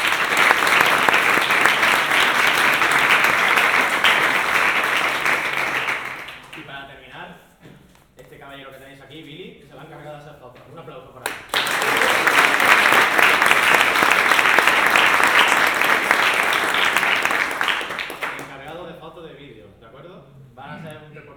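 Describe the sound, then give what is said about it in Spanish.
Audience applause at a game jam event: two long rounds of dense, loud clapping, each lasting several seconds, with a voice speaking in the quieter gap between them and again as the second round fades. “Así que un aplauso también para ellos, por favor.”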